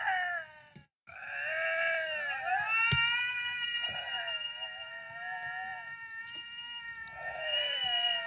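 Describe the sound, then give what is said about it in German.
Two lynxes meeting in the wild yowl and caterwaul at each other in long, wavering, high wails that rise and fall. The calls are fairly faint, break off briefly near the start, and carry a few small clicks. “Weißt du, wie es klingt, wenn sich zwei Luchse in der Wildnis begegnen? Nein. Es klingt so.”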